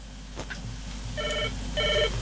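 A telephone rings with an incoming call: two short electronic trilling rings, one after the other, over a steady background hiss and low hum.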